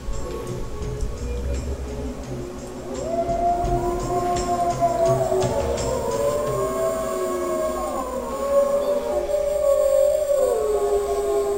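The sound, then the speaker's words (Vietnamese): A vast chorus of wolves howls together, thousands of voices in a wild pack. Long gliding howls overlap and waver up and down from about three seconds on, building into a dense wall over a low, steady rumble. “Âm thanh của nghìn vạn con sói cùng tru lên ấy mới thực sự là núi non rung chuyển.”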